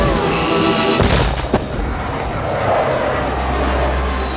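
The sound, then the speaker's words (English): Anti-aircraft guns firing: a couple of sharp cracking reports cut through a continuous heavy roar of gunfire, which settles into a low, droning rumble toward the end. “Christmas Town hauls out the anti-aircraft guns.”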